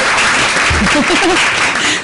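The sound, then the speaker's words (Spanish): An audience at a secondary-school education forum applauds, a dense, continuous wash of clapping. A brief voice rises over it midway through the two seconds. “Aplauso para todos, sí.”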